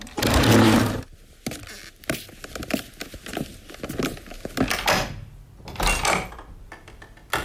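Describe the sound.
A front door is opened for an evening visitor: a loud rustling burst, then a run of clattering, scraping latch and hinge sounds, ending with a few sharper knocks.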